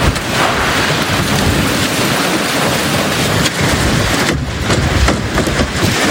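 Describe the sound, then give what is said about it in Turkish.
A storm with strong wind sweeping through New York streets, heard as a loud, continuous roar of wind and rain with slight surges and no pauses. “Fırtına önüne neyi kalktıysa aldı götürdü.”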